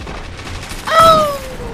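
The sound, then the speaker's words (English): A single sniper rifle shot in a video game, a sharp loud burst followed by a whining tone that slides downward in pitch as it fades out. “Oh, he's using a sniper rifle or multi-mag.”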